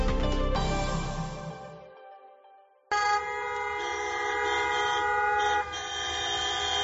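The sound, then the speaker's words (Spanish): Car horns from a convoy of about fifty ambulance company vehicles honking through city streets in Mérida during a workers' protest. Overlapping sustained blasts sound loudly, fade briefly around the middle, then return strongly and keep sounding to the end. “Sonido de hoy en Mérida. Los trabajadores de Ambuvital en Extremadura, en algo más de medio centenar de vehículos, han recorrido las calles de la capital extremeña”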